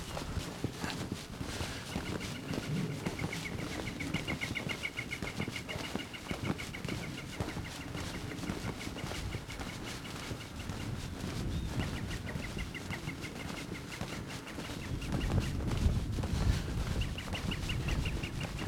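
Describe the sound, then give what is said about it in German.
A bird calls at length without a pause, a long run of high, rapidly repeated notes over a steady wash of outdoor noise that grows a little louder toward the end. “Der Vogel hat aber einen langen Atem, ne?”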